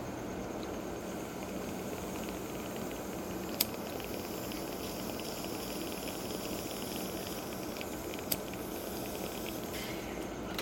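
Bong water bubbling while a bowl is smoked, a dense, steady gurgling hiss that runs unbroken throughout. Two sharp clicks break through it.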